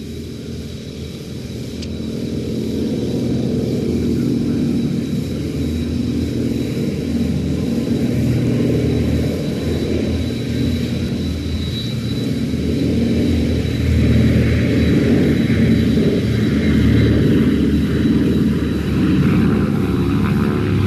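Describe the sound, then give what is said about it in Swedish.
Three SK-16 aircraft and a DC-3 flying in formation fill the air with a loud, steady propeller-engine drone, a dense rumbling roar that holds throughout and swells slightly toward the end. “Nu ska vi lyssna till en formering med tre stycken SK-16 och en DC-3.”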